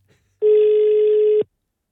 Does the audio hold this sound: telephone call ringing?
yes